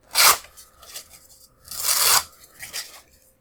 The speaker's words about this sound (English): So I'm gonna rip that up.